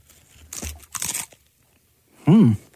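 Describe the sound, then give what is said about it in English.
Tortilla chips dipped in guacamole are bitten with two sharp, crunchy crackles in quick succession. A pause follows, then a short, low vocal murmur. “You're putting a chip inside like mashed potatoes, so you're going to have to get in there with two chips. Here we go. Two chips.”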